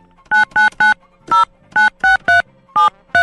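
Telephone keypad tones sound as a phone number is dialed. Eight short, loud, even beeps come in an uneven rhythm with brief gaps between them, and their pitch changes from key to key.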